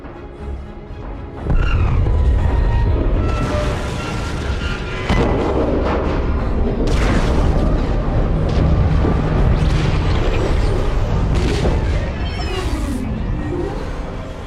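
Weapons fire between starships in a space battle: a dense, continuous barrage of loud booming blasts and rumbling impacts, with sharp bursts breaking through a heavy roar throughout.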